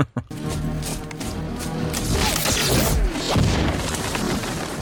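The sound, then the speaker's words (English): A grenade explosion in a video game opens with a sharp, heavy boom, then a long, dense rumbling wash of noise that stays loud to the end. “That's it, get the little grenades out. Always come in handy, they do.”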